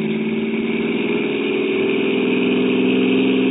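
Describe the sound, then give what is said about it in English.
A car engine runs loudly and steadily, holding a constant droning hum with an even pitch throughout and no other sounds over it. “Stepped on the gas like a shot.”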